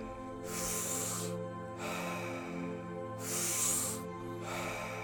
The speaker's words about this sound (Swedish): Tio kvar nu. Djupa andetag.